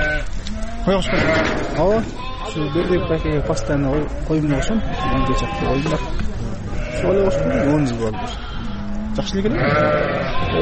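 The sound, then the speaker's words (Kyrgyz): A flock of sheep with lambs bleating in a village in Naryn, Kyrgyzstan, with many overlapping wavering calls at varied pitches sounding continuously and loudly throughout. “Мына 50 коюм бар, мына моу козу кетип баратпайбы?”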